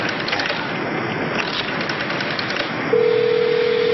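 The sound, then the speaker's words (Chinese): A telephone is redialed. Faint rapid dialing pulses sit under steady background hiss, then a continuous line tone sets in and holds to the end. “哎，没人接听啊， 线路通吗？ 通啊，只是没人接。呃，我再重播一次啊。”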